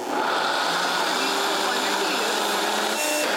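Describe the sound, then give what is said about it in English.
A blender whirs as it purées cooled onions into a sauce, making a loud, steady, unbroken whirring noise for the whole clip, with a voice present under it. “you're going to put your beautiful blender to use. Yes, so our onions have cooled.”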